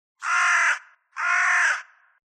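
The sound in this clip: A raven gives two harsh, rasping caws of similar length, separated by a short pause, each trailing off at the end, with silence between them.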